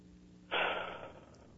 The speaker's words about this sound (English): I want you to take a deep breath and hold it in and hold in for a few seconds and then blow out. And I want you to do that three or four times.